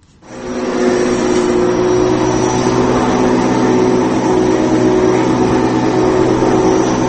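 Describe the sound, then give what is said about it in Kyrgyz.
Motor drone of a mower cutting the grass of a football stadium pitch, starting abruptly and then holding a loud, steady whirring hum for about seven seconds. “Спартак стадионунун кызматкерлери көк майсаңды чач тегиз дегендей кыргып, отургучтарын ашыга тазалоодо.”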